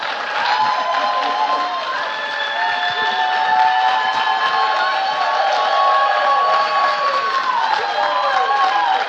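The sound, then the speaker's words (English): An audience applauds and cheers to welcome a pastor at a morning service, a dense, steady clapping and cheering that lasts throughout, with sustained tones woven through it. “So if you would put your hands together, give Pastor Robbie a great welcome.”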